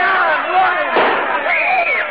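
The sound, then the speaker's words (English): A single sharp gunshot rings out in a radio-drama courtroom scene, cutting through a stretch of raised, shouting voices. “Who did that? Who fired that gun? I did.”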